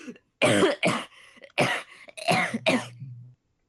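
A person coughs after sitting up: five harsh, raspy coughs in uneven bursts, the last trailing into a low throaty rumble before silence.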